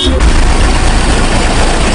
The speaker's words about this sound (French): Ici, impossible d'avancer vers Dakar. Les files de voitures s'étendent à perte de vue.